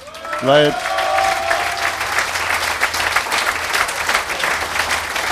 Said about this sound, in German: da gehört auch mal Applaus